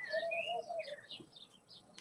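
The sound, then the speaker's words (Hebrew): Birds chirping outdoors, a quick run of high, clear whistled chirps and short tweets that overlap and vary in pitch, fairly soft and heard alone. “אתם שומעים את הציפורים?”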